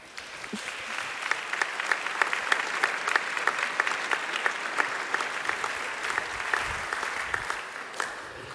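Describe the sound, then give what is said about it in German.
Warm applause from a church congress audience in Augsburg welcoming a pastor onto the stage. Many hands form a dense, even patter that holds a steady level from start to end, with no voices over it. “Begrüßt mit mir hier ganz herzlich auf der Bühne mit einem warmen Applaus Pfarrer Dr. Thomas Schlegel.”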